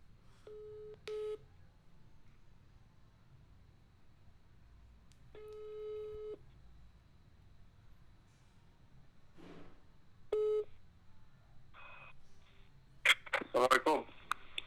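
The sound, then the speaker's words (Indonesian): Telephone tones sound as a call is placed, with a few short bursts of ringing separated by long pauses, then a voice answers at the end. “gue akan telepon seseorang nih teman gue juga”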